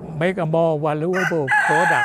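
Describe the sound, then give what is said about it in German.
A rooster crows loudly among chickens being fed grain scattered on the ground from a barrel, with drawn-out, wavering calls that run almost continuously. “Er greift in eine Tonne mit Körnern, wirft sie auf den Boden für die Hühner.”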